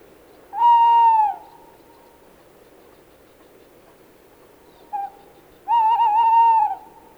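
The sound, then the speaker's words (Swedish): A tawny owl calls alone: a long, wavering hoot, then a brief clipped note after a pause, followed by another long, quavering hoot. “nu följer kattuggla.”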